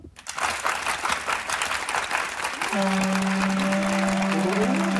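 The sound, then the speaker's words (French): Theatre audience applauding in a dense, continuous clatter of clapping from the stalls after a dramatic verse speech, loud and sustained throughout, with a steady low sustained tone entering partway and holding under the applause. “Le parterre applaudit.”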